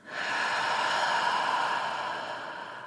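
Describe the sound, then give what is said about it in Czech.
A deep inhalation, a breathy rushing hiss that swells quickly and holds steady for nearly three seconds before easing slightly, with no talking over it. “Zluboka se nadechni.”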